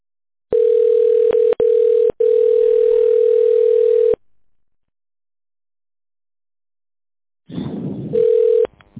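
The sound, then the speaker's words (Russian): A telephone line tone sounds while a call to a company's phone line is being connected. A steady mid-pitched tone holds for about three and a half seconds with brief breaks, then after silence some noise and a short return of the tone. “Если вы знаете внутренний номер сотрудника, наберите его в тоновом режиме или оставайтесь на линии для соединения со специалистом.”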